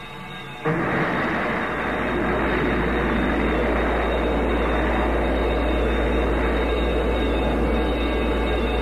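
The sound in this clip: A space shuttle rocket launch after a countdown: a deep, loud roar bursts in abruptly near the start and then holds steady and powerful to the end, with no voices.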